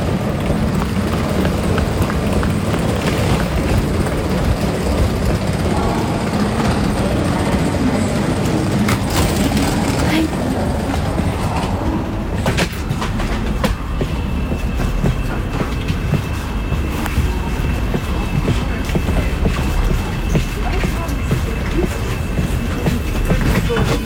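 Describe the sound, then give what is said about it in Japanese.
Passenger train running on rails on a journey toward Luxembourg, a loud continuous rumble and rattle with light clicking, holding steady throughout. “そして見つけました。空いている車両に入りましょう。あと2分で出発です。”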